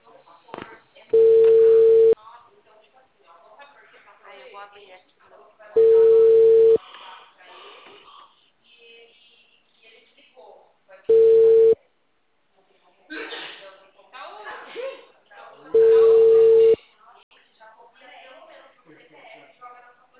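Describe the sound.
Four steady telephone ringing tones on an outgoing call, the third noticeably shorter, with a voice talking in the gaps between rings.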